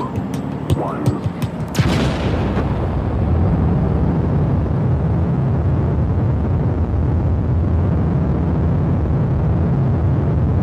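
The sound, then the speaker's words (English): A rocket launching from a launch pad into space: a few sharp clicks and crackling pops lead into a loud burst, then a deep, steady, thundering roar that holds to the end. “So we're starting at a launch pad, and we are shot up out of the Earth's atmosphere.”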